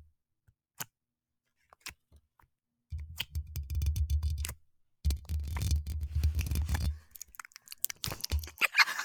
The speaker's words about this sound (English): Should I open the slime really quick and give everybody a taste? A taste. So, this is a taste.